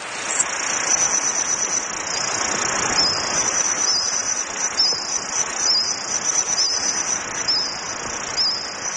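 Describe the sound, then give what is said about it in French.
Insects chirp in a reconstructed soundscape of a Jurassic forest: a steady, high-pitched trill that runs without a break over a soft hiss, with faint flickers in the chirping and no voices. “comment ça sonne, une forêt du Jurassique, quel bruit il y avait? Maintenant, oui. Des scientifiques aussi l'ont fait. Et ils sont allés même jusqu'à reconstituer le paysage sonore d'une forêt de cette époque. Ça donne à peu près ceci.”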